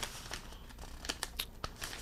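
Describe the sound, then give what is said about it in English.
Paper pages are turned, faint soft rustling punctuated by a few crisp crinkles and flicks in quick succession. “turning pages”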